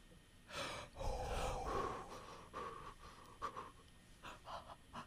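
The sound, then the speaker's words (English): People taking deep breaths to calm down: faint, airy inhales and exhales, with a few breathy swells rising and falling unevenly and no talking. “You guys, deep breaths.”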